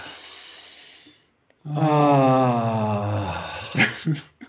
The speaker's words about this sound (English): So let's take a deep breath to clear our mind.